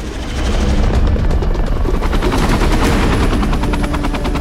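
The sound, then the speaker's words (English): Heavily armored military helicopters flying in formation above city streets: a loud, steady, rapid rotor chop over a dense engine roar that continues throughout, with no voices. “Heavily armored helicopters fly in formation above the city streets towards the Dread Reservation.”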